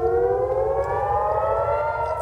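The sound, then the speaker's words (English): Air raid sirens wailing at night in northern Israel during airstrikes and rocket fire: one loud, steady sustained tone whose pitch drifts slowly downward, heard alone without talk. “Sirens piercing the night with Israeli jets carrying out airstrikes against Hezbollah in Lebanon”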